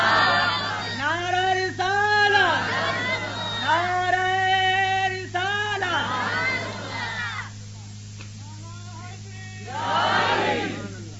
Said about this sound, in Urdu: سبحان اللہ نعرہ تکبیر